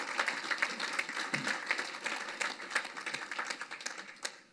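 Audience applause welcoming a team onto a stage: dense, steady clapping from a crowd that fills the whole stretch, easing off slightly at the very end.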